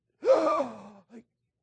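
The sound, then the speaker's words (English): A voice imitates the last gasping breath of a dying person: one drawn-out, rasping inward gasp, then a short, fainter catch of breath before silence. “I've watched people with that death rattle and trying to get that last breath, and you'd wait and you'd think, they're not going to breathe again, and then,”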